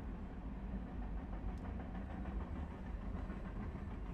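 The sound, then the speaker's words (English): Low, faint, continuous rumble of a passing train, steady throughout with no clear breaks or peaks. “That dang train.”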